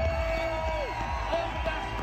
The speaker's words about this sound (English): He's such a great man, ladies and gents. Big round of applause for Travis Kanang.